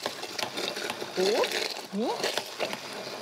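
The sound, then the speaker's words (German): A blender puréeing frozen berries makes a steady, buzzing motor whir, with a voice briefly speaking over it. “Und hier habe ich jetzt tatsächlich noch Tiefkühlbeeren im Eisfach gefunden. Man könnte aber auch Beeren nehmen, die vielleicht jetzt nicht mehr, also die nicht schimmelig sind, aber die vielleicht nicht mehr so richtig viel Power haben. Und das hier püriere ich einmal.”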